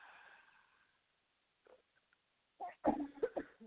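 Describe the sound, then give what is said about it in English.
A person coughs during a guided deep-breathing meditation. After a faint exhale and a pause, a quick cluster of short, rough coughs breaks out, all fairly quiet. “Excuse my cough.”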